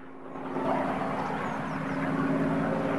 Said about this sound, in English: The single-engine plane rises in the air, then spins as it moves away from them.